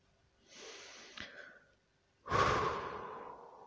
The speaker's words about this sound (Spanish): Vamos a respirar profundo y exhalar por la boca.